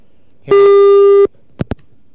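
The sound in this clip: Telephone busy tone on a line after a dropped call: one steady, loud electronic tone lasting under a second, then two short sharp clicks.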